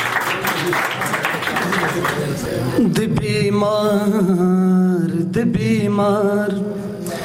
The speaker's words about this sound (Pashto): چک چک ورته وکړئ، ډېر ګلابي شاعر دی.